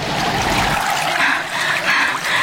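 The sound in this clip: River water flows in a continuous rushing wash, a steady broad hiss with slight swells in loudness and no talk over it.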